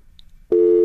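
Telephone busy tone after a caller dropped off the line, a steady, loud electronic tone that cuts in about halfway through and holds to the end after near silence.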